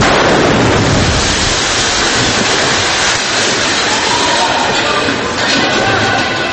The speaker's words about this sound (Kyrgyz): Мындай жер астын үстүн болгондой, кулак тундурган жарылуу жөнөкөй адамдарга үрөө учурган көрүнүш катары сезилсе